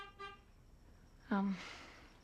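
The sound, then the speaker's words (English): A car horn gives one short honk, a steady low tone lasting about a fifth of a second that stands out against an otherwise quiet background. “I guess that's my date. You aren't gonna get in the car with a guy who honks, are you?”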